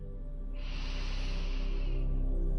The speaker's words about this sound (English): Softly close your eyes. Inhale into the belly.